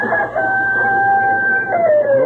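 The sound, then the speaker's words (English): Rooster crowing: one long, loud crow held steadily at a high pitch, dropping in pitch as it trails off at the end. “darn rooster. You've been crowing since daylight.”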